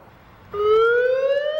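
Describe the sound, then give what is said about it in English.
Emergency siren test from beehive-shaped town speakers hanging over main roads, part of a nuclear emergency alert system. After a brief quiet hum, a loud, steady harmonic wail starts abruptly and holds, creeping slightly upward in pitch. “This is a test of the emergency siren system. This is only a test.”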